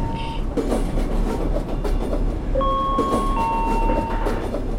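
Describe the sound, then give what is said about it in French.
A passenger train pulls into a station, a steady heavy rumble with rattling wheel clatter throughout, joined by thin high squealing tones in the second half. “Mesdames et messieurs, en quelques instants, nous arrivons en gare de Brixemini.”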